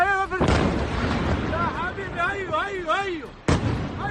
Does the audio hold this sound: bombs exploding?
yes